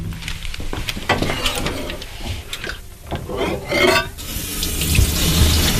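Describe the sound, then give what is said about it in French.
Clear running water rinses an acid-etched copper plate. The flow makes a steady gushing splash with shifting spatter that swells louder toward the end. “Donc là, je viens juste rincer à l'eau claire en fait ma plaque qui a été mise dans l'acide.”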